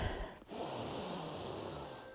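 A slow breath drawn in during a guided relaxation exercise: a steady, soft breathy hiss that runs for about two seconds after a brief dip near the start.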